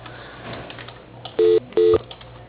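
Two short electronic keypad tones sound in quick succession as a phone call is transferred to voicemail, over a thin, low hum on the phone line.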